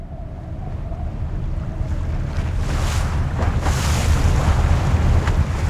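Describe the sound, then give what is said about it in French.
Water and wind around a rowing boat out at sea: a steady, surf-like wash of noise with a few louder splashy bursts near the middle. No voices are heard. “Nous ramons au milieu des poissons, des noyers.”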